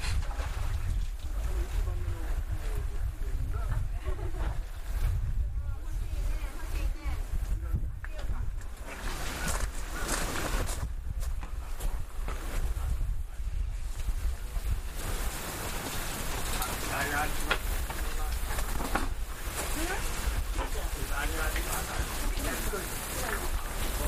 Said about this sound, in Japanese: 今水跳ねの音です。バシャバシャプールで泳いでます。